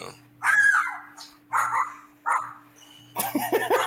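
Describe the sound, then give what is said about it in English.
A police canine unit dog barks in a few loud bursts separated by short pauses, over a low, steady hum. “that's the dog doesn't agree. Yeah, that's the canine unit. Can you be quiet? That's the canine.”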